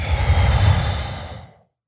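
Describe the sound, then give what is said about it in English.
A deep breath taken during a relaxation breathing exercise while lying on a yoga mat: one long, loud, breathy rush of air that sounds like a sigh, then fades to silence near the end, with no talking. “you are going to breathe in as deeply as you can. So, and then you're just going to let it go.”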